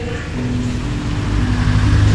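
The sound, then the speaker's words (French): Steady engine rumble from a convoy of heavy military trucks, with 33-tonne lorries at the rear, a loud, low, continuous drone that holds evenly throughout with no talk. “Les 33 tonnes en queue de convoi. On dirait des camions militaires.”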